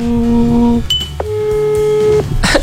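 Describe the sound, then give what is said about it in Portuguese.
Telephone call tones: a steady held tone, then a short high beep and further steady tones with brief sweeps, heard over a noisy, busy background with no clear speech. “Tô ligando, Gui. Estou ligando”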